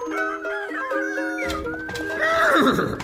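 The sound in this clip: A horse whinnies in one long, quavering neigh whose pitch steps and trembles, then swells into a louder, breathy burst near the end.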